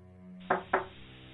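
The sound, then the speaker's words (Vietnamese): Two sharp knocks on an earthen floor, closely spaced and fairly loud, over a steady low musical drone. “Rồi bất ngờ có tiếng gõ nền xuống nền đất làm cho Chiến lờ mờ tỉnh dậy. Anh đưa hai tay dụi mắt. Tiếng gì vậy hả? Tiếng gõ vẫn cứ vang lên đều đặn.”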